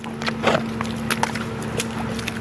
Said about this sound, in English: This is the sound of workers walking through the 13-inch thick gray-colored muck it left behind.